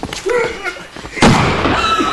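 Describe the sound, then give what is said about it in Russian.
A rifle is fired during a dramatic confrontation. After a short burst of voice comes one sharp, loud blast with a lingering noisy tail. “Клянусь, я не стрелял. Случайно кто-то на курок нажал!”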